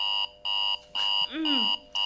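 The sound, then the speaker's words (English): An alarm clock buzzes in about five sharp, evenly spaced bursts, each a loud, steady, harsh tone broken by short gaps. A brief voice-like groan sounds between two of the bursts. “Stupid alarm. It is only 7:01.”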